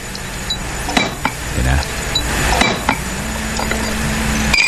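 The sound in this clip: Glasses clink as a drink is poured and mixed with soda, a few sharp bright taps standing out over a steady fizzing hiss.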